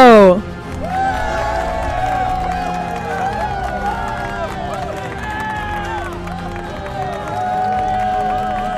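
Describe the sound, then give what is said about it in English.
An audience cheers and applauds for the host of a law, sports and entertainment show. A loud, steady crowd roar holds throughout, with whooping voices sliding up and down in pitch over continuous clapping. “Ladies and gentlemen, put your hands together for Josh Scarpello!”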